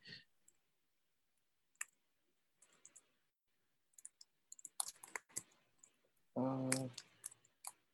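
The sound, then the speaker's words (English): Typing on a computer keyboard: faint, scattered key clicks come in short irregular clusters separated by long quiet gaps, with a denser flurry of taps near the middle and a brief louder burst near the end. “And I can't type with one hand.”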